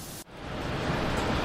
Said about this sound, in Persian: شعله زبانه میکشد و اخگرها به اطراف میپاشند و فلز جوشان و مذاب جاری میشود.